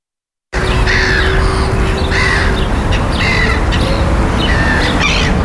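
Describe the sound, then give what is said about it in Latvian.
Black-headed gulls call loudly beside a city canal in Riga in spring, with many harsh, squawking cries in short repeated bursts over a constant background hiss. “Pavasara putnu kņadā pie Rīgas kanāla Basteikalnā ar skaļiem kliedzieniem sevi piesaka lielie ķīri, mazas kājas ar baltu vēderu, pelēkiem spārniem, melnu seju un astes galu.”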